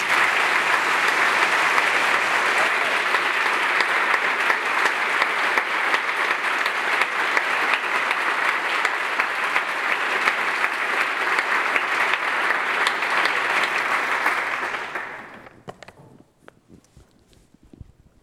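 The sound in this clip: Dense, steady applause from an audience welcoming a guest speaker to a lecture holds level for about fifteen seconds, then fades quickly to a few scattered claps.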